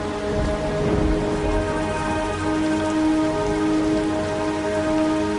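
Steady, even rain falls in a village during a shaman's rain ritual, a dense continuous patter and hiss with no breaks.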